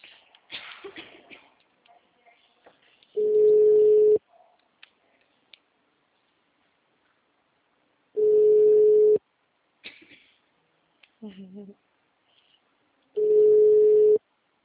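Telephone line tone while a call is being placed: three steady, low, single-pitched tones about a second long, separated by long stretches of near silence with faint shuffling and clicks in between.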